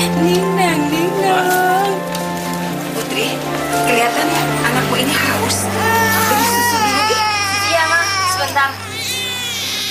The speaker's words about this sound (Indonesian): Tuh anak mau nangis.